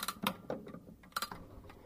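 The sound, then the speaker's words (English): A key winding a clock mechanism, giving faint, sharp ratcheting clicks in uneven bursts, several close together and then a pause before more ticks. “you put the key into the hole, you make that noise with it. Tighten it up to the necessary position, same with the other key.”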